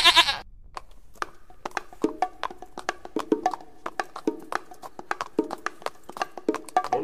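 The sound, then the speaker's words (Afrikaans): A small buck gives a short bleat at the very start, followed by a long run of quick, irregular clicks and taps that carry on quietly to the end. “Sy hoor iets. Wie is daar? Maar dit was net 'n bokkie.”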